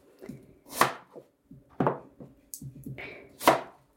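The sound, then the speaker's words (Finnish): A kitchen knife halves peeled onions, making a few crisp, sharp cutting strikes with uneven gaps between them and softer scraping touches in between, without talk. “Ja sitten kun on sipulit kuorittu, puolitetaan ne.”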